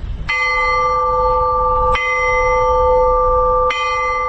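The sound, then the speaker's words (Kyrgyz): A peace bell rings at a memorial complex built for victims of 2013 events. Three loud, evenly spaced strikes each leave a long, bright, humming ring that sustains until the next blow. “Андан ары атайын 2013-жылкы кок алаңдан жабыр тарткандарга арналып курулган комплекстеги тынчтык коңгуроосу кагылды.”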